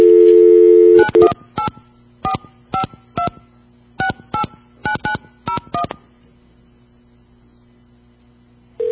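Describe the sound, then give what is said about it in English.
Touch-tone telephone dialing of a verification number on a New York phone switch: a steady dial tone gives way to many short, clipped tone bursts in an uneven rhythm, then faint line hiss. “let's go dial a couple of numbers”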